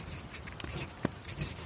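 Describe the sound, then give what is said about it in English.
A pointed pen dipped in ink scratches faintly across paper in a few short, quiet strokes. “You're right! Someone is writing!”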